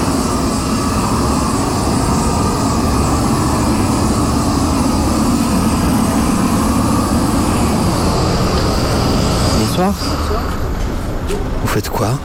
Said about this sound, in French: c'est mon collègue qui pose ça au chalumeau. C'est quoi la technique en fait Ça s'appelle du thermocollé. Donc c'est un logo qu'on chauffe au chalumeau,